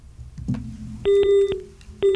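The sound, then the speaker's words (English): Missed-call telephone tone on a radio station's call-in line: two steady, loud electronic beeps, the second cut off at the end, after a short low rumble and over faint hum. “Another missed dial tone right there.”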